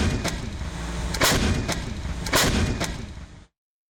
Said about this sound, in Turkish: Panter obüsü 27 adet mühimmat kapasitesiyle kesintisiz ateş gücü sağladı.